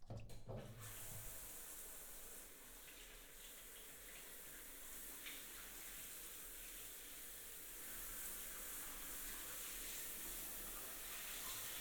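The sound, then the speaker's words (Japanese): Water runs steadily from a tap while a person is rinsed during bathing. It is a faint, even, hissing stream that continues for the whole clip, with a brief sharper splash at the very start. “お流ししますね。”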